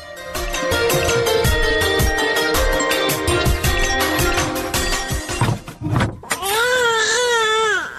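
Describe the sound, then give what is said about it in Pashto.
A boy cries loudly, with wavering, sobbing wails that grow most pronounced near the end. “دا دې دلته یې ما هلته هلک ژاړي او ته دلته په غوجله کې ناست یې.”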